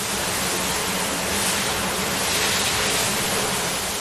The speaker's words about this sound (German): während er mit dem Schlauch die Innenanlage abspritzt,